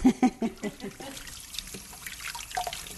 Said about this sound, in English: Wash my hands.